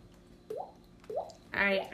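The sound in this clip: Liquor dripping as the drink is poured to the last drop: two short, liquid plinks, each rising in pitch, followed by a voice speaking.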